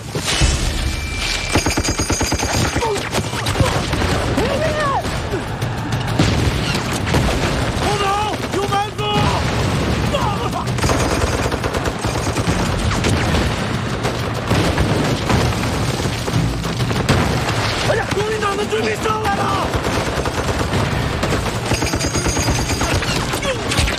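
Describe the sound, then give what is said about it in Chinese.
Heavy machine-gun fire from two guns laying down crossfire, a dense, loud barrage of rapid bursts and booms that runs without a break through the whole clip. “配备了两场重机枪，一上一下交叉火力，把我们前行路彻底封死了。”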